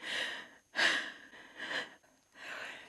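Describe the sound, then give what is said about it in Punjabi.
Heavy breathing from a person who has just come up out of water: four faint, breathy gasps and exhalations in an uneven rhythm, with no talk. “ਮੈਨੂੰ ਸਾਹ ਆਉਣ ਲੱਗ ਪਿਆ।”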